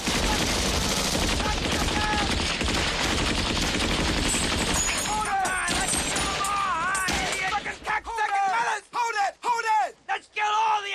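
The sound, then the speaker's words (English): Machine-gun fire from a gunboat in a Vietnam war film scene: dense, continuous bursts of gunfire for about eight seconds, mixed with shouting. Then the firing stops and agitated yelling voices carry on. “Miller guns down the Vietnamese. Chef cowers in the stern as Lance fires too.”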